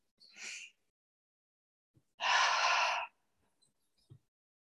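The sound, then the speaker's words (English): A deep cleansing breath: a soft inhale, then a pause, then a long, loud, airy exhale that stops abruptly, followed by quiet. “we'll begin with three deep cleansing breaths.”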